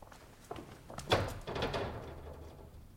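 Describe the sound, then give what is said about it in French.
A door bolt being drawn shut: a faint knock, then a solid thunk and a short sliding scrape that trails off, all fairly quiet. “Là, c'est sans doute une précaution inutile, mais Sigognac m'a bien recommandé de tirer le verrou.”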